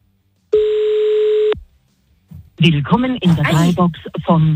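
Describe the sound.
A ringback tone on an outgoing phone call plays as a single steady, moderately loud ring of about one second. After a brief pause, people start talking.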